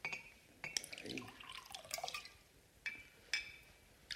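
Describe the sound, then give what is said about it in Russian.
Wine and vodka are poured into glasses at a dinner table: a faint trickle of liquid, broken by a few sharp glassy clinks spread through the pour. “Ну, Егор, налей девочкам вина, а мы по рюмке водки.”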